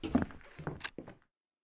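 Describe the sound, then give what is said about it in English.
A door is opened downstairs to let a visitor in, in a Spitalfields radio-drama scene: a few soft footsteps and dull wooden thuds come in an uneven sequence, fairly quiet, before the sound cuts to silence. “I'll go downstairs and let her in.”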